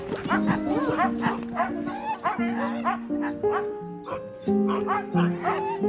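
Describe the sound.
Barking from a dog out on a snowy dog hike, with many quick barks and yips mixed with whining, tonal cries in a steady, busy run.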